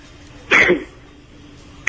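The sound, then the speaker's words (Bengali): A person gives a single short cough, like a brisk clearing of the throat. The burst is moderately loud against an otherwise quiet background. “প্রত্যেক কথার আগে একবার করে কাশি দিচ্ছ।”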